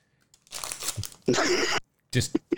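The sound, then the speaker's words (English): Crinkling and tearing as a baseball trading card pack is ripped open: loud crackly bursts of wrapper noise, with talk in between. “Here's my pack. Let's go ahead and rip it open here.”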